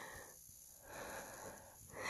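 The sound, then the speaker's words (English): Faint, wheezy breathing of someone catching their breath, a few airy breaths with no speech, low in level and continuous. “if you hear me kind of pausing to take a breath, it's because I have to catch my breath.”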